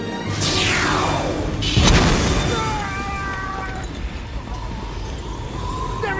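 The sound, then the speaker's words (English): A laser weapon fires in footage from the film Independence Day: a high whooshing sweep falls in pitch, then a loud booming blast hits, followed by a sustained heavy rumble. “Well, actually, that was just footage from the movie Independence Day, but the real laser would be a lot like that.”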